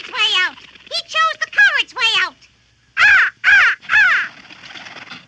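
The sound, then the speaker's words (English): Harsh cawing of a black raven: a quick series of rough, harmonic caws, then a short pause and three louder, drawn-out caws. “A black raven flew into the room and perched on the bookcase.”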